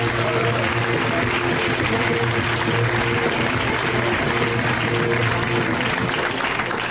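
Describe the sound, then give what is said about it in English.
An audience applauds a comedian with loud, dense, steady clapping that holds evenly for about seven seconds without a break. “Let's hear it right now for Mr. Chris Garcia, guys. Give it up for Chris.”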